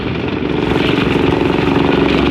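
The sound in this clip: Steady engine drone from a fast rented motorboat on its way to a coastal village, one continuous, loud, even running note with no breaks and no talking.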